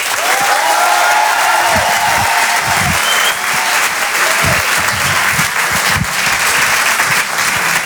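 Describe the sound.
Loud applause and cheering from a French comedy club audience as a comedian comes on stage: dense, sustained clapping throughout, with high whoops and shouts riding over it early on.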